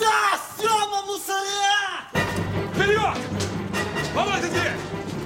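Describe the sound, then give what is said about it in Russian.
A teenager shouts loudly during a police raid on an apartment, two long, strained yells in a row, the second rougher and set against background noise. “Подросток показывает оперативникам, в какой квартире находится преступник. А сам кричит в другую сторону.”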